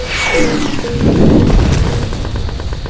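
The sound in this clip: A bomb explodes on a video game battlefield. The loud blast carries a descending whine and a thick rumbling tail that lingers for a few seconds.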